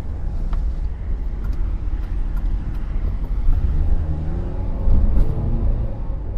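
A car driving toward a forest, its engine giving a steady low rumble with faint road noise, alone and without talk throughout.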